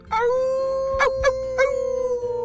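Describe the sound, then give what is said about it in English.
A long, drawn-out howl from a giant shaggy brown werewolf holds a steady, fairly high pitch for about two seconds, broken by a few short thumping bursts midway. “We just received a howl.”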